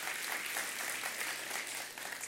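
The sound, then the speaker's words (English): Steady, dense applause from an audience celebrating a woman's 103rd birthday, a fairly faint, even wash of many clapping hands that carries on without a break. “Everybody, round of applause. Come on, what are we doing here?”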